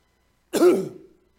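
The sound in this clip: A single short throat clearing from a man preaching a sermon, a rough, gravelly burst lasting about half a second with no speech around it.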